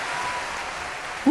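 Crowd applause sound effect: a dense, steady wash of clapping that holds at an even level for the whole moment and swells slightly at the very end.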